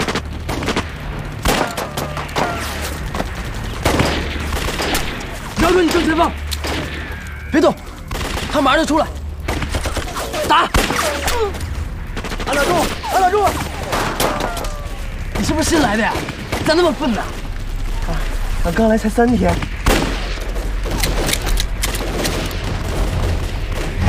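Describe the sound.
Gunfire rages through a battle against bandits holding the high ground: many rapid shots and bursts crack continuously, mixed with heavy booms. Shouting voices break in throughout the fighting.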